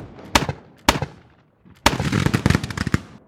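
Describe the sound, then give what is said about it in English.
Rifle fire in a battle sound effect of Confederate riflemen firing on Union troops: two sharp, loud cracks separated by a pause, then a brief silence and a dense, rapid volley of many overlapping shots. No voices are heard. “With almost continuous machine gun-like fire, the rebels cut the divisions down.”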